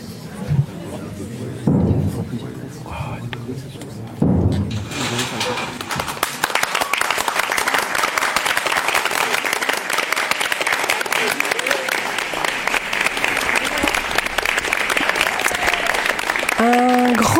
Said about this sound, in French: Je crois qu'il faut applaudir très fort à l'ouverture du rideau.